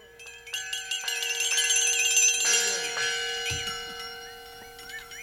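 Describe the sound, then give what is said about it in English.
A flexitone, a bendable metallic percussion instrument, gives off wobbling, warbling high metallic tones over a steady sustained ringing, swelling in the first half and then fading before a few last wavering notes. “First, there's the sound of a flexitone, a bendable metallic percussion instrument often used for cartoon sound effects.”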